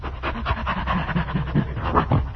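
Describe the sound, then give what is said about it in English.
Heavy, rhythmic panting from someone out of breath after climbing a hill: a steady run of quick, breathy gasps, fairly loud and alone, with no talk over it. “Did you get out of breath climbing up that hill?”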